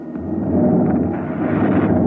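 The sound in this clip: A spacecraft thruster blast made as a radio drama sound effect: a loud, steady roaring rumble that holds for about two seconds without a break.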